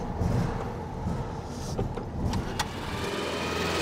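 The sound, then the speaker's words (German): A restored vintage split-window Volkswagen Beetle driving up. It is a barn find about 50 years old with new electrics and added turn signals, giving a continuous low engine rumble with a few brief sharp clicks partway through. “Beim Brezelkäfer ging es viel schneller. Die Elektrik neu, zusätzliche Blinker dran und der Scheunenfund fährt wieder, so wie vor 50 Jahren. Und schon ist er da.”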